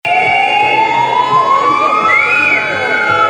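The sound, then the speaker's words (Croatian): Ambulance sirens sound in protest outside a prison in Zagreb: a loud, continuous wail that climbs steadily in pitch across the whole clip and never breaks. “Odjekivali su sirene 30 sekundi za vozačevih 30 dana zatvora.”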